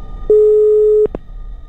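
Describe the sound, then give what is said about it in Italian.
Telephone busy tone after a failed attempt to make contact: one sustained, steady mid-pitched beep lasting under a second, followed by a couple of short clicks, with no talk. “fallimentare tentativo di stabilire un contatto con la Terra.”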